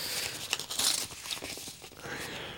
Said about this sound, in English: It's a Christmas card from my girl. Man, I'm opening this now.